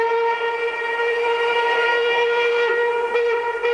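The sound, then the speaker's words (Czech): A steam train whistle sounds as an express train passes, a loud, steady, chord-like blast held at an even pitch for the whole moment with no voices. “Náš ostře sledovaný rychlík 651 projel už Mýto, Kařízek, Zběroch, Cerhovice a blíží se”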